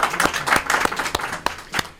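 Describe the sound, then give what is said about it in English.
Applause from a room of audience members in a studio, a short burst of rapid, uneven hand claps with overlapping crowd noise throughout. “Give yourselves a round of applause, guys.”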